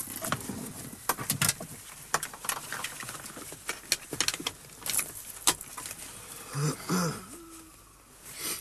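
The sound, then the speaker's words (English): Seatbelts being fastened in a car during a driving lesson: faint rustling and a series of small metallic clicks and clinks, followed by a short low tone near the end. “First of all, we must fasten our seatbelts.”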